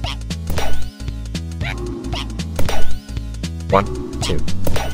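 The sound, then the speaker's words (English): Monkey's cue in the ball-hitting rhythm video game Hole-in-One: short, yelping monkey calls pop out a few times in a repeating pattern over a bouncy musical backing. “Hole-in-One, a game where you have to follow Monkey's and Mandrill's cues by hitting the ball at the correct time when they make noises. So first is Monkey's cue, which sounds like this.”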